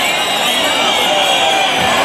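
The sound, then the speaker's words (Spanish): A bullring crowd roars in a dense, sustained clamour, loudly demanding a second ear for the mounted bullfighter, steady and unbroken throughout. “Unánimemente la plaza ha apretado pidiendo la segunda. La plaza se ha venido arriba pidiendo la segunda oreja, pero de una forma tremenda.”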